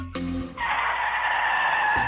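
Car tires skid across the road with almost no grip, a harsh, sustained screech lasting well over a second after a short lower sound at the start.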